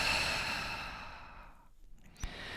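A slow, noisy exhalation after a deep breath during a relaxation exercise on a mat: a long airy breath that gradually fades into quiet, followed by a small click near the end; no talk.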